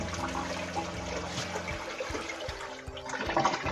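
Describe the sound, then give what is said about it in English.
A toilet being flushed gives a steady rushing and gurgling of water that churns at moderate loudness for the whole stretch, with no talking over it. “Hold on, man. I gotta flush this toilet.”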